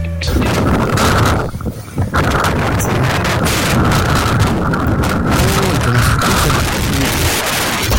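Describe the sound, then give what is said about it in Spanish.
A strong wind blows through the city, a loud, constant rushing roar of buffeting air with a brief dip in strength near the start, otherwise steady throughout. “Increíble el viento, increíble, increíble el viento. Impresionante, así se está sintiendo hoy día en la ciudad.”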